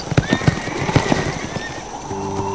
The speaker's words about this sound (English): spurred his horse, and kicked it into a gallop.